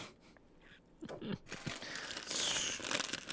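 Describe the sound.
Crinkly rustling and crunching as a s'more horn snack is handled, with irregular crackles that grow brighter and denser in the second half.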